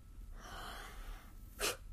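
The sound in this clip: A deep breath drawn in: a soft, airy inhale of about half a second, then a brief, sharper burst of breath. Faint throughout.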